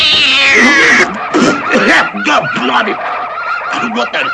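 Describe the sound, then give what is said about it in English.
A tabby cat yowls loudly, opening with a long, high, wavering wail and then breaking into rougher, choppier yowls that continue throughout. “look what we got. A tabby cat.”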